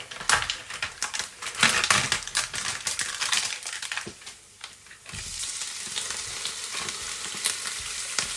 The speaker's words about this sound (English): But you can hear it sizzling away in the pan there. I've got the pan around about, I guess around about four, which is always good. And let's put some of these prawns in there.